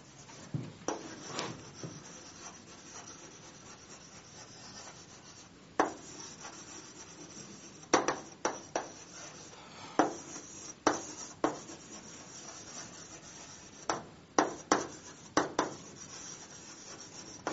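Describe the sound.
Writing on a board: faint, irregular scratching strokes, many short sharp marks in quick bursts with brief pauses between them.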